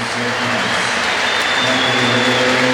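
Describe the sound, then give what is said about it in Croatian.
Crowd applause at a football match as a player is substituted off late in the game, a steady, dense clapping that holds at full loudness throughout while a commentator talks over it. “a ide vani Šotiček s brojem 23, dakle pljesak za Šotičeka”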